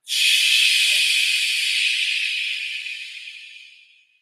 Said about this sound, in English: Big breath, fill up the lungs there, hold it for the count of three. One, two, three. Exhale loudly through the mouth.